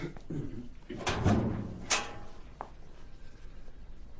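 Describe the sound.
A sergeant's locker door being opened, a few knocks and clunks of the door and its hardware, with a faint voice in the background.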